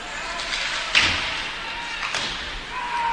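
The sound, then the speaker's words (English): Hockey puck thudding off the rink boards during a college ice hockey game: a sharp knock followed later by a second, softer thud over steady arena noise. “Bouncing the puck off the boards.”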